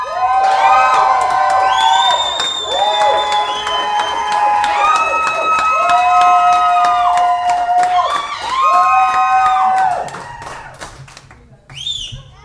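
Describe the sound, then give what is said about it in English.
Loud, sustained audience cheering for the affirmative side in a debate vote by volume, with shouted whoops, clapping and raised voices that hold strongly for about ten seconds before dropping away. “Now we're gonna work out who wins by the loudest vote. Can I hear it for the affirmative?”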